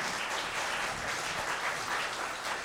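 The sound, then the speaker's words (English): Audience applause welcoming a speaker onto the stage: dense, steady clapping from many hands that holds at an even level throughout, with no voices heard over it. “Let's give him a hand.”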